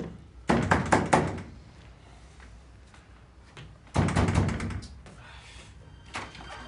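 Knocking on a door in two loud bursts of rapid blows separated by a quiet pause, followed by a fainter knock near the end.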